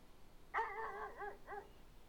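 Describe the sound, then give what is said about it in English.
A dog bark sound effect played from a phone app: one drawn-out, yelping bark with a slightly whining, wavering pitch, then a brief short tail. It sounds alone over faint background hiss. “Okay, that's the first dog.”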